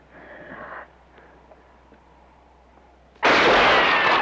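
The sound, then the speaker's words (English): A gunshot fired at a rock: after a quiet stretch with a low hum, a single loud, sudden blast lands near the end and its rough noise carries on to the close. “He still misses the rock. Can you shoot? No, I can't shoot”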